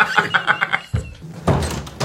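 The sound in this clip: A wardrobe door is opened, heard as a couple of dull wooden thunks after a short run of rhythmic tonal pulses.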